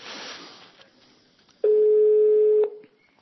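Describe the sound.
Ringback tone of an outgoing phone call. A stretch of faint background noise comes first, then one steady mid-pitched tone lasting about a second before it stops.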